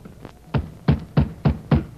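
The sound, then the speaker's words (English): Fists hammer on the wooden door of a lone old man's cabin shack: a faint knock, then six heavy, evenly spaced thuds in quick succession, loud and alone. “An old man lived alone inside the shack, and he went quickly into action when Jake and Moose began to hammer on the door.”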